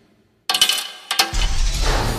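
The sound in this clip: Two coins tried one after the other in a hangar, giving short metallic clinks and rattles in two separate bursts, followed by a sustained low rumbling noise that continues to the end.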